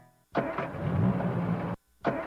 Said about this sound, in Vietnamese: Xe bị gì vậy cô? Dạ, xe em đang bị hư cái gì không biết nữa.